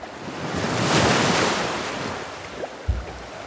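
Ocean waves wash onto a shore where people are wading, a broad rushing surge that swells, peaks and slowly recedes, with wind buffeting the microphone and a brief low thump near the end.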